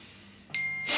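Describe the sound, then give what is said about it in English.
A mobile phone notification sounds as a short bright chime that holds as a steady tone, followed by a louder burst of rushing noise at the end. “Sorry, that's my phone going.”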